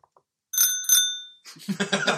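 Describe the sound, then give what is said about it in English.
Two bright, quick rings of a bicycle bell, each leaving a clear metallic tone that hangs and fades, followed by a busier, noisier stretch of sound. “Bicycle Bell.”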